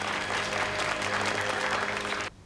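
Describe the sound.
Applause at a film screening attended by a nun and an archbishop: a dense, steady patter of many clapping hands that cuts off abruptly just before the end.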